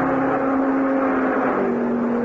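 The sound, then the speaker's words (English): Cars thundering past on a test track, heard as a loud, steady engine roar with a sustained humming tone running through it and no talk. “the people watching the test winced as the cars thundered by, just as if they expected the autos to fall apart any second”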